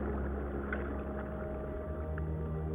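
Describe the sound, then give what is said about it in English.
Whale song, drawn-out low moaning tones with a few faint higher calls over a steady underwater rumble, continuous throughout. “Whatever the reason, the whales keep singing throughout their lives. These extraordinary melodies change and evolve over time.”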